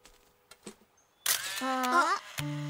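A few short, sharp clicks from a film camera's shutter sound as a photograph is taken, followed by loud, voiced exclamations.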